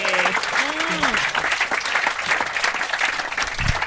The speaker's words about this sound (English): So, ladies and gentlemen, let's hear it for Noel and Keith.